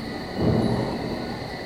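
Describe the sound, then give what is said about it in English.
Low rumble of a distant thunderstorm over the Paluxy River at sunset: a broad, soft roar that swells around the middle and then lingers as a steady wash of noise. “looks like a storm in the distance.”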